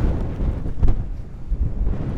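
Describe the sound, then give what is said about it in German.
Strong wind buffets the microphone in a steady low roar, swelling in gusts with no voices. “Und es weht hier ganz ordentlich.”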